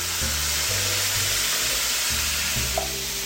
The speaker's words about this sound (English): So in go the beans and their liquid.